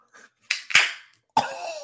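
A Wild Leap Local Gold beer can being cracked open, with a faint tap, a bright hiss and a sharp metallic pop, then another fizzing burst that trails off.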